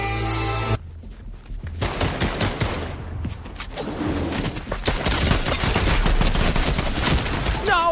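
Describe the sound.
Rapid gunfire in a video game, with dense, overlapping bursts of shots forming a loud, continuous barrage that swells and thickens toward the end.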